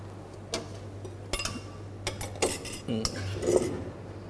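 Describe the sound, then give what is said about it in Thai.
Utensils clink and scrape in a pan as spring onions go in as the final ingredient and the dish is tossed to mix, giving several sharp metallic taps and scrapes at moderate loudness with no talk. “เดี๋ยวเราจะมาใส่ต้นหอมกันเป็นขั้นตอนสุดท้ายนะครับแล้วก็คลุกเคล้าให้เข้ากันครับ”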